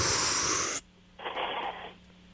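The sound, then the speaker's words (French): A deep breath drawn in during a breathing exercise: a loud, airy rush lasting under a second, then a short pause and a softer, shorter breath. No talking. “Juste trois fois, on inspire puis on expire, OK? Suis-moi. On va commencer par inspirer.”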